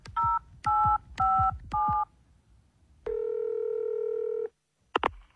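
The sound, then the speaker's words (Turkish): Touch-tone keypad dialing to call an ambulance: four short, even electronic beeps in quick succession, then a longer steady tone, with no voices. “Şimdi ambulansı arıyorum.”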